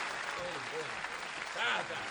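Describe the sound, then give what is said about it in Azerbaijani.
Faint applause greeting a guest arriving at a holiday celebration, a soft continuous patter running under a talking voice. “Həbib bəy gəlsin içəri, alqışlar, alqışlar Həbib bəyə.”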